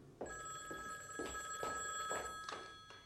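A telephone bell rings at night in a radio drama set in a coal-mining engineer's home, sounding as a quiet, steady run of rapid metallic pulses with no other sound.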